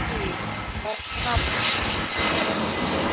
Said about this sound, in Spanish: Ahí pasó el avión. Sí, pasó el avión.